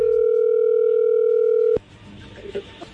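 A telephone dial tone before a call is placed: a loud, steady, unbroken hum lasting under two seconds that stops sharply, leaving faint line noise with a few soft bumps.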